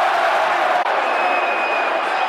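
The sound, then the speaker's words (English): A football crowd on its feet during a scuffle at a Brentford match, a loud, sustained roar of many voices that holds steady apart from one brief dip. “A few words being exchanged between Neil Harris. A little bit of pushing and shoving. Crowd on their feet.”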